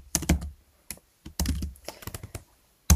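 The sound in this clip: Computer keyboard typing while a note is written down: short clusters of quick keystroke clicks separated by brief pauses, fairly loud and heard alone.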